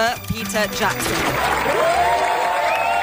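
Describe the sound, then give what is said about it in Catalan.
Audience applause for Peter Jackson at the Sitges festival's main auditorium, as he receives an honorary award with a standing ovation. A voice is heard briefly at the start, then dense, steady clapping and cheering continue loudly to the end. “Ara sí, sisplau, demano un fort aplaudiment per al gran”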